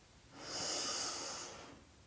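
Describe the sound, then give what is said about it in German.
A single slow, deep inhale through the nose during a guided breathing exercise, soft and airy, swelling to its fullest midway and fading gently over about two seconds, quiet and alone with no talk. “Und nun so ganz allmählich atme mal tief durch die Nase ein. Lass uns das zusammen machen.”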